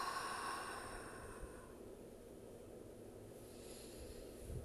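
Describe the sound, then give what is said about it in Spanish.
A person breathes in through the nose and out during a relaxation exercise. The breath is soft, faint and airy, strongest at the start and then trailing off, with no talk. “Inhalamos por la nariz y exhalamos.”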